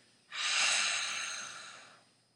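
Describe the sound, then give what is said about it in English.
Ujjayi breathing drawn through the nose with the mouth shut: one long, steady, airy breath with a soft hiss. It starts abruptly, then slowly fades over about two seconds, with no talking. “If you are well versed in the Ujjayi breathing, you can practice this breathing with your mouth shut, inhaling and exhaling from the nose only, while making the”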